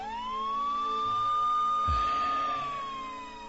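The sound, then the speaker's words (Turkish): An ambulance siren sounds as one long sustained wail. It rises at the start, holds steady and sinks at the end, swelling louder and then fading, with a low thump midway. “Ambulans geliyor başkomiserim.”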